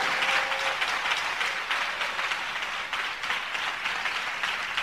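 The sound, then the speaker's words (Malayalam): An audience claps together on request at a Malayalam-speaking gathering. The sound is a soft, steady wash of many hands that lasts the whole clip, with no voices heard. “എല്ലാവരും ഇത് കൈയടിച്ചേ, എല്ലാവരും ചേർന്ന് കൈയടിക്കാം.”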